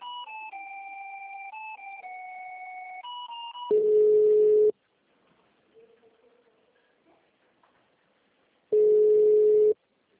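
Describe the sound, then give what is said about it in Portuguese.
Telephone line tones play while a call to a city hall is transferred to its human resources department: a stepping two-tone sequence, then two loud, steady beeps of about a second each, separated by a long quiet pause. “Só um momento, vou transferir sua ligação.”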